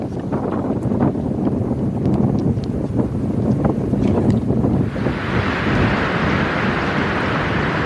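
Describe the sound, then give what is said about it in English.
Strong wind sweeps across the most exposed tee of a golf course facing a firth. A loud, continuous roar buffets the microphone with rumbling gusts, then turns into a brighter, steadier hiss for the last few seconds. “so as you say, into that strong wind we have right now.”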